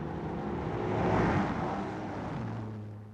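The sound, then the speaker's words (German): A car approaches and passes: a broad, loud rush of noise swells to a peak about halfway through, then eases into a steady, low engine hum. No voices are heard. “Geben Sie Obacht, es kommt ein Wagen.”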